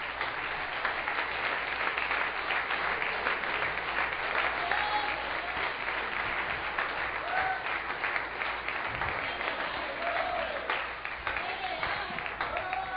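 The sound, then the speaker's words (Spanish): An audience claps during a church sermon, keeping up continuous, steady applause for about thirteen seconds. It sounds slightly muffled, with voices faintly mixed in. “Dale un aplauso a Cristo.”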